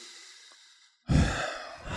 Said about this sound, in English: Take a deep breath.